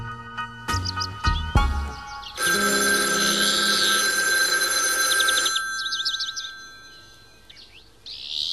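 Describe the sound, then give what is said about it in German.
Telephone ringing in one long, loud, jangling burst of several seconds, preceded by short tonal sounds and followed by quieter high chirping. “Kathy Hilton ruft mich an und meint, ich solle unverzüglich in die Hamptons aufbrechen.”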